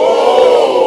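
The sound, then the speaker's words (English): A crowd standing in a field in Rochester, New York, cheers and yells during a total solar eclipse. It is a loud, sustained burst of massed voices. “This was the sound of people standing in a field in Rochester, New York.”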